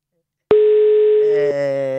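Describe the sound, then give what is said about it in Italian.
A telephone ringing tone starts abruptly as a loud, steady electronic tone at one pitch. It holds for about a second, then turns into a richer, buzzier tone. “vi faccio sentire anche lo squillo, così siete partecipi di tutti i particolari di cronaca”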